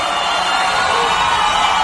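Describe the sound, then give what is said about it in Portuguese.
A crowd booing, a loud, dense wash of many voices that holds steady without a break for just under two seconds. “uma vaia!”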